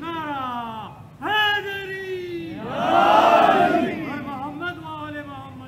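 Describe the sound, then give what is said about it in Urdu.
A religious slogan chanted at a gathering: a single voice calls out in long, sliding tones, then a large crowd roars back together, and the leading voice returns afterward. “یہ نعرہ بھی اس لیے لگایا گیا کیونکہ اللہ کے رسول کا حکم ہے”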